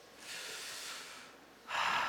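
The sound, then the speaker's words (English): A church audience taking a deep breath together: a faint, long airy rush of many breaths, a brief lull, then a shorter, louder burst of breath. “Can we all start by taking a deep breath together?”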